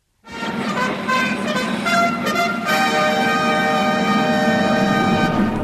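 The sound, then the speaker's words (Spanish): Opening signal of a shortwave Spanish-language service for Latin America: a loud, sustained tonal chord with rich harmonics that changes partway through and holds steady to the end, over a hissy background. “Vamos a escuchar cómo abría su transmisión en la onda corta de la radio de las Naciones Unidas en idioma español para América Latina.”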